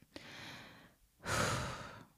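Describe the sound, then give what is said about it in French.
A deep breath drawn and let out, heard as two breathy rushes, the second louder and fuller than the first, with a short pause between them. “Je prends une grande respiration.”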